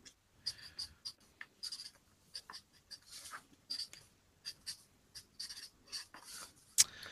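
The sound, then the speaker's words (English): A pen scratches across paper as someone writes a long answer by hand during a trivia quiz. Many short, faint strokes come in an uneven rhythm, with a louder tap near the end. “writing a very long-winded answer”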